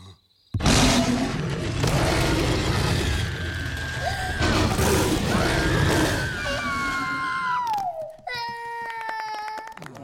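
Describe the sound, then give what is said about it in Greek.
A monster from the animated film Monsters, Inc. roars in a scene from the Greek dub. The roar is loud, sustained and strongly voiced, with a wavering pitch that glides downward near the end. “Κάνε ένα βρυχισμό.”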